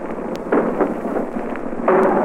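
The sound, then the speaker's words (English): An artillery shell bursts during a wartime beach landing. It comes through as broad, rough noise that surges suddenly louder twice over a constant roar. “Just simultaneously with that shell burst that you heard, we hit the beach.”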